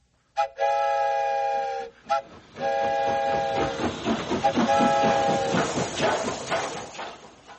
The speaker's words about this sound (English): I'll leave the whistle in your hands, too.